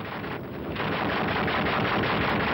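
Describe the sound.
Rapid gunfire aimed at a French patrol by Vietnamese fighters during the Indochina war: a dense, continuous crackle of shots, loud and noisy, filling the whole clip with no pause.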